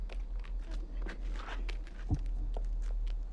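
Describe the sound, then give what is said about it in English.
Footsteps climb stone steps up to a stage, several scuffing treads in an uneven rhythm over a low steady hum. “Peacekeepers escort Katniss to the stage. She mounts the stone steps toward the beckoning MC, who guides her to the microphone.”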